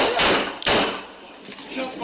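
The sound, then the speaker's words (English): Gunshots fired by police officers, recorded on a body camera during a shooting incident at Mesquite Charter School: two loud, sharp cracks in quick succession, followed by fainter scuffing noises. “This is the sound of police trying to talk to the teenager when he picked up the gun and officers fired.”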